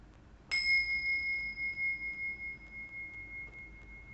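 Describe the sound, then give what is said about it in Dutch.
A single bell strike rings out after a brief quiet moment, its clear, high tone sustaining and slowly fading with a gentle pulsing waver. “Dus ehm, ja, bij deze ga ik terug het belgeluid gebruiken.”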